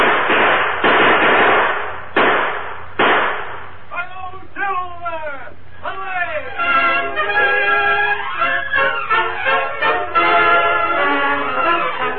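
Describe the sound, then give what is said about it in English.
Gunshot effects in an old Lone Ranger radio drama as men open fire on a masked rider fleeing into the trees. Four sharp, loud bangs come in quick succession, followed by men shouting and talking over one another. “Open fire.”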